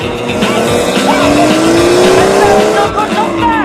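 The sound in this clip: A car accelerates hard along an empty sunlit road. The engine is loud and continuous and its pitch climbs steadily, with a hint of tire squeal.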